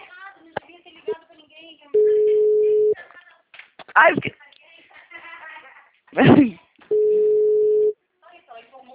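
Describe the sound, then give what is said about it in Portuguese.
A telephone busy tone sounds after a dropped call, coming as two steady, low-pitched, one-second beeps separated by a long gap. Voices talk around and between the beeps. “Oi, Ana, desculpa, a ligação caiu.”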